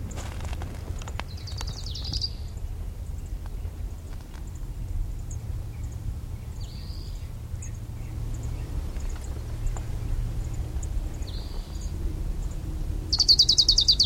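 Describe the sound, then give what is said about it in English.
A crowned warbler sings in a field recording on a divide between two canyons: four short, high, buzzy phrases spaced several seconds apart, faint over a low steady background rumble, the last phrase slightly louder. “Range Crown Warbler number 3 on the divide between Sweetwater and Middle Canyon.”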